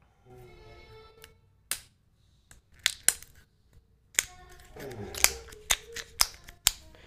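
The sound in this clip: Crinkling foil and sharp snapping crackles as sealed Pokémon trading card packs are torn open, a string of many crisp, uneven bursts separated by short quiet gaps.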